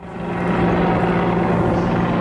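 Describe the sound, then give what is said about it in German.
A helicopter circles over Tivat, its loud, steady rotor and engine drone holding unchanged throughout with no voices. “Der ständig über Tivat kreisende Helikopter lässt vermuten, hier passiert heute Ereignisreiches.”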